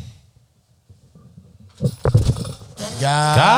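A whole microphone is dropped, landing as a few sharp clattering knocks after near silence, followed by a loud shout.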